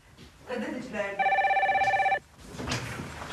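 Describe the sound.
A telephone rings with a rapid, trilling electronic bell in a loud burst of about a second. People talk before and after the ring.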